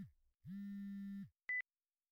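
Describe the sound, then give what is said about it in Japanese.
A mobile phone ringing with faint electronic tones: a low steady tone lasting under a second, then, after a short pause, one brief higher-pitched beep, with no voices. “あら、携帯が。”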